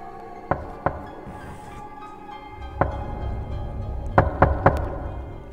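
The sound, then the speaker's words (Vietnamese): Dry knocks on a door leading out to a porch: a few sharp, hollow raps at uneven intervals, including a quick cluster near the end, over a low steady background. “Ba tiếng gõ ở cánh cửa thông ra ngoài hiên vang lên khô khốc.”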